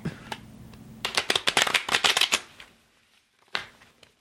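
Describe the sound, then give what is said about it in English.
Tarot cards being shuffled: a rapid riffling burst of crisp flutters, then a pause and a single sharp card slap. “There's a card slappings.”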